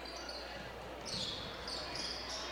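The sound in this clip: A basketball is dribbled on the court during a high school boys' game, its bounces faint and repeated under a steady, dense crowd din with voices.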